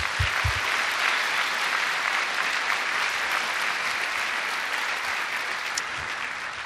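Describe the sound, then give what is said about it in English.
Audience applause welcoming two guests on stage before a moderated dialogue, a dense, even wash of clapping that holds steady throughout and fades only slightly at the end. “So why don't we put our hands together and welcome them here tonight.”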